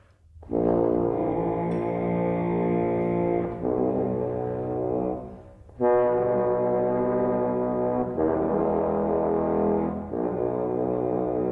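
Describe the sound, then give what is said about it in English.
Low multiphonics played on a horn sound as a few long, buzzing sustained notes with dense stacked overtones. Short dips in loudness separate them, and the horn plays alone. “Usually multiphonics are really low on the horn, so”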